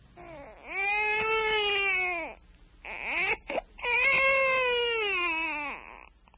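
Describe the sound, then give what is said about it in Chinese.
A baby cries loudly in long, high-pitched wails: one sustained cry, a short break with choppy sobs, then a second long wail that fades at the end. “他哭声这么大，恐怕不能够久藏这孩子了。”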